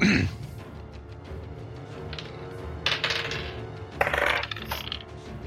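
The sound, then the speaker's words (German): Dice clatter across a table as players roll for initiative in a tabletop role-playing game, giving a few short rattling bursts over a low, steady background murmur. “Und ihr dürft alle Initiative würfeln.”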